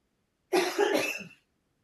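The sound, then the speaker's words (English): A cough from someone who has had COVID again and can't shake it: one short, harsh burst in two quick pulses. It is fairly faint and stands alone, with no talking. “You got this cough. I can't get rid of.”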